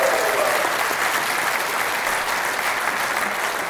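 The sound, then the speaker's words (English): Applause from a church audience on graduation Sunday, clapping for the graduates: a dense, steady wash of many hands that holds at an even, fairly loud level throughout. “This is graduation Sunday. Give it up for our graduates in the room.”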